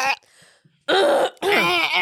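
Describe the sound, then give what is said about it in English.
A person clearing their throat: a short rough burst at the start, then two longer, loud, raspy, voiced pushes with a groaning tone. “Why do I have so much crap in my throat?”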